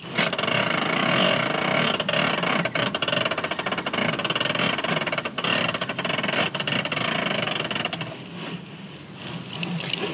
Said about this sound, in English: That was the sound of me releasing my seatbelt slowly in the car.